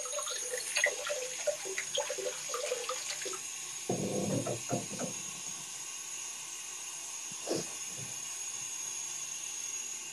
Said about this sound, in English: Let me put some water in this.